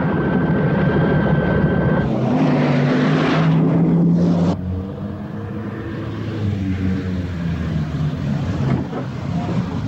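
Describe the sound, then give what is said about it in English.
Engines roar as a helicopter takes off and Land Rovers mounted with machine guns race through a compound, a loud mechanical drone and whine that shifts abruptly early on, then settles into a sustained rumbling growl. “An SDC helicopter takes off as Land Rovers with machine guns race through the compound.”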